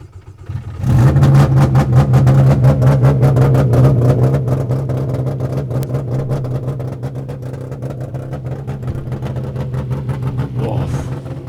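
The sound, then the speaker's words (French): A car engine starts in neutral after its oil and water temperature displays light up. It catches suddenly and settles into a loud, steady run of rapid firing pulses that eases slightly in level. “Voilà, température d'huile, température d'eau. Là, nous sommes au point mort sur l'afficheur. Donc on peut démarrer.”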